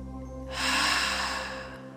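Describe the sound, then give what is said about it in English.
A forceful exhale through the mouth during a morning meditation breathing exercise, one breathy rush lasting about a second that swells and then tapers over soft, steady background tones. “inhaling through your mouth. Through your mouth, exhale forcefully”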